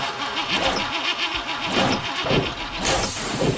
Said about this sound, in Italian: Se il tuo veicolo commerciale ormai suona così,